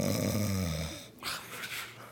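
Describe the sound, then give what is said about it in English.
A voice imitates loud snoring: one drawn-out, rattling snore lasting about a second, then a breathy, noisy exhale trailing off. No other talk is heard. “I started snoring and fell asleep.”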